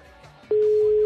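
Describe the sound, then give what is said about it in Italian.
A telephone ringing, a single steady electronic tone that cuts in abruptly halfway through and holds loud to the end after a quiet start. “Ma è il mio telefono che suona, è un altro telefono.”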